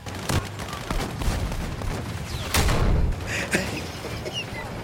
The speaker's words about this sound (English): jump into the Battlefield 6 open beta running from the 14th to the 18th in the month of August right now. Destruction, guns, tanks.